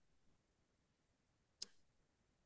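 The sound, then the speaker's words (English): A single sharp computer mouse click, brief and clear, against a very quiet background. “Let me just click the article here because it'll say.”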